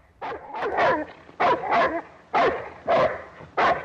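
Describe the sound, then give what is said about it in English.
A tethered guard dog barks aggressively in a muddy yard, a rapid run of sharp, loud barks in quick bursts with brief gaps between them. “She rushes away from the dog. It chases her and she runs round a pole which the dog's lead is tethered to.”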